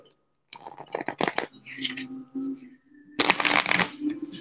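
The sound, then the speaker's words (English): Playing cards are shuffled in quick riffling bursts, a crisp crackling flutter, with a short voice heard between an opening run of riffles and a final longer burst. “But I am getting the cards ready.”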